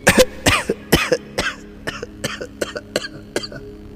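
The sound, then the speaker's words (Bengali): A man with lung cancer coughs heavily: many harsh, rasping coughs in a rapid, uneven series, loud at first and gradually weaker, with no speech. “এই পর্যন্ত বলে ভদ্রলোক খুব কাঁচতে লাগলেন এত কাশছেন কেন”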